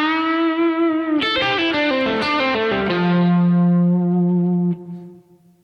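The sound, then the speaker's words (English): Distorted electric guitar phrase played legato with pull-offs on a Bluesman Vintage Guitars instrument through a Kemper profiling amplifier: a held note, then a quick run of smoothly connected notes, settling on a lower sustained note that cuts off. “here it is with some pull-offs, eliminating some pick strokes and making it sound more legato”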